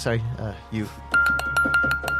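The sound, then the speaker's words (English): A doorbell with several notes, like three or four counter bells struck with a little mallet, rings out in bright, clinking strikes over a lingering tone, following a brief voice at the start. “Why does that doorbell have so many notes? I don't know. It's like three or four bells on the counter.”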